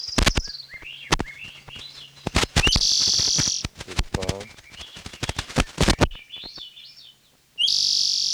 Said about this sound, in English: Wild Swenson Thrushes